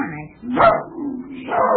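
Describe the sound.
A dog barks twice, two short, tonal yelps with a whimpering edge, heard on their own.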